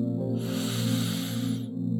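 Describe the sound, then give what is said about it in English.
A slow, deep inhale through the nose during a guided meditation, heard as a soft, airy hiss lasting about a second and a half over a steady, low musical drone. “let's just all center ourselves first by taking a nice deep inhale through our nose”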